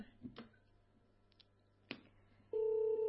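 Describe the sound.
Telephone ringing for an incoming call that goes unanswered: a few faint clicks, then a steady, loud ring tone starts abruptly and holds to the end.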